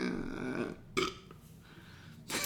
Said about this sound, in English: You're belching and besmirching a classic.